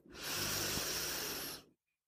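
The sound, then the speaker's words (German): A long, steady, airy intake of breath during a guided breathing exercise. The breath sounds loud and breathy and lasts about a second and a half before stopping abruptly into silence. “Einatmen.”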